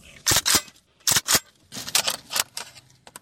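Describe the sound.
Metal parts of a Kalashnikov rifle clack and click as it is handled during cleaning. Sharp, bright impacts come in irregular clusters of two or three, with short quiet gaps between them.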